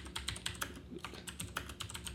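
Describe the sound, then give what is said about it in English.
Rapid typing on a Black Widow mechanical keyboard with brown keys: many loud, sharp clacking keystrokes in quick, uneven succession, with a short pause near the middle and no voices. “Is your keyboard from 1988? Like, what is that thing? Brown keys, Black Widow. God, that thing sounds intense. Loudest keyboard available.”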